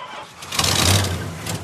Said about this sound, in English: I just can't get my truck started.